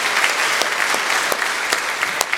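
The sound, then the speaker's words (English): A church audience applauds its volunteers with dense, steady clapping from many hands. The applause holds at an even loudness throughout with no voices standing out. “Let's give our volunteers a round of applause.”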